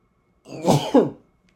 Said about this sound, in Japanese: くしゃみが出そう。